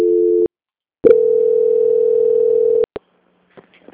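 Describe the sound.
Telephone tones mark a call being transferred: a short steady tone, a pause of silence, then a longer steady tone of nearly two seconds, cut off by a couple of sharp clicks.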